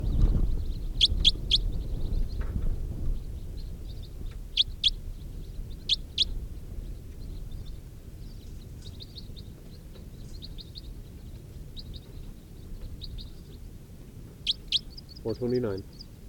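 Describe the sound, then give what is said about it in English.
Wild birds flying over give short, high chirping calls, faint and scattered across the stretch, above a low, steady rumble. “A couple of wild birds flying over.”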